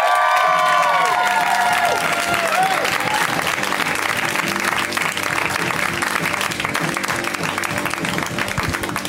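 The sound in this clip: An audience at a comedy show applauds a comedian with loud, dense, steady clapping and cheering that carries without pause through the whole stretch.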